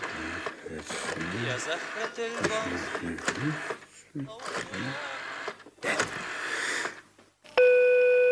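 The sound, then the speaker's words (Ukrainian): A steady electronic telephone tone sounds while a call to a doctor is placed. It enters abruptly near the end, after people have been talking throughout, and holds at a constant pitch with a buzzy, harmonic-rich quality. “Так, доктору Кіку телефоновать зараз же.”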